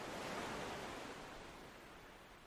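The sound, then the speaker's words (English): Ocean surf rolls onto a deserted beach as the tide comes in, a continuous soft hiss of breaking water that fades gradually, alone and unbroken. “The tide is slowly coming in.”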